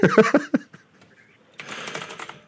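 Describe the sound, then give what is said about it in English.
A printer runs in a short stretch of rapid, buzzing mechanical chatter near the end, after brief talk at the start and a near-silent pause. “I'm going to distract her by saying the printer going”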